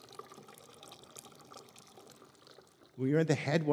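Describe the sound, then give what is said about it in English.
Water trickling at a brook's headwaters, a faint, steady burbling wash for about three seconds before a voice begins speaking over it. “It all starts with just a trickle. When you hear the sound up here, when you're at the headwaters of a place,”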